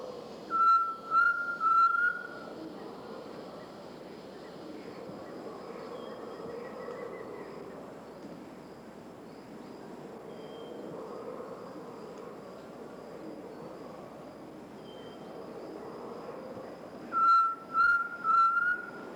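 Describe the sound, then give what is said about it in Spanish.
Whistled calls of a tinamou, also known as chorola, in Colombia: a few short, clear, evenly spaced notes at the start and again at the end, with a steady insect buzz filling the gap between them. “El tinamú o chorola, una de las aves, quizá la más primitiva con que cuenta nuestra avifauna.”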